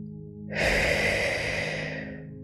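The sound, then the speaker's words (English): One deep belly breath, a long, airy exhale that starts suddenly and then fades slowly, heard alone. “Let's take 3 deep belly-filling breaths and let's exhale for longer than we inhale.”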